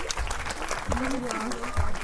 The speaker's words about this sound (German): Dann bitte nochmal einen riesen Applaus für unsere Moderatoren, die sich jetzt wieder hinsetzen, außer Nils und Osamui.